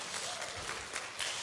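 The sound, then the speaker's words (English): Audience applause after a call for a round of applause, a steady, dense wash of many hands clapping, fairly faint and even throughout with no clear breaks. “everyone give us a round of applause for that, right?”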